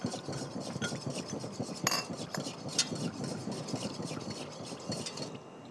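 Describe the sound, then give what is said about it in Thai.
A utensil scrapes and lightly clinks against a bowl, stirring a mixture until it turns liquid with no lumps left. The stirring keeps a steady, rapid rhythm throughout, with no voices. “เราก็คนนะคะคนจนเป็นของเหลวก็คือไม่ให้มีขนาดที่เป็นก้อนเป็นเม็ดอยู่เลยนะคะ”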